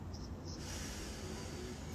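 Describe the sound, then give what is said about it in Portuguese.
Deep breath drawn in through the nose during a guided relaxation exercise: a faint, steady airy hiss lasting about two seconds, with no talking. “Respira fundo, bem fundo pelo nariz. Solta o ar.”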